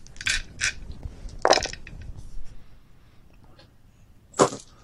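Dice rolled for a tabletop game where successes are counted: a few short, bright rattling clatters, clustered at the start, with one more sharp rattle near the end, separated by quiet stretches.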